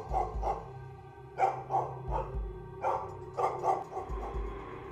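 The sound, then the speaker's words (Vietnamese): A neighbour's dog barks in a series of sharp, irregular barks, some single and some in quick pairs, over a faint steady low hum. “cho đến khi có tiếng con chó nhà gần đó sủa giống cả lên.”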